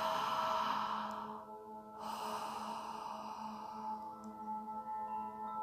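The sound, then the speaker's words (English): Medium breaths drawn in and let out through the mouth during a guided breathing exercise, a few slow, soft airy breaths heard faintly over a steady, low tonal drone. “They're all medium breaths. And it starts with in mouth, out mouth.”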